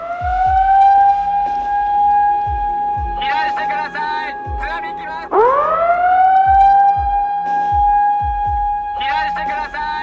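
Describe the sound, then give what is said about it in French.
Loud, wailing tsunami warning siren in Japan after an earthquake, a sustained steady tone that cuts out and sweeps back up in pitch midway, with people talking over it. “Cette sirène, tous les Japonais la connaissent. 3 minutes après le tremblement de terre, l'alerte au raz-de-marée lancée.”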